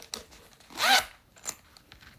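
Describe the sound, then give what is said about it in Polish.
A zipper on a solid leatherette microphone case is pulled open in one short, bright rasping stroke, framed by a few faint clicks and handling taps. “Zamek otworzyłem i po otwarciu jest w folii mikrofon.”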